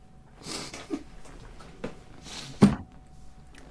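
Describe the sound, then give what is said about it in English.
Spluttering, snorting coughs from someone choking after accidentally inhaling beer while drinking: a few abrupt bursts with a harsh, throaty outburst near the end. “I was drinking, and I inhaled my beer”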